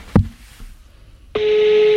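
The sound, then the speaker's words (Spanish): A telephone ringback tone comes through a speakerphone as a number is dialled. A single soft click is followed by a pause, then a steady, mid-pitched buzzing tone starts and holds to the end. “Las veces que habré marcado este teléfono. Pone manos libres.”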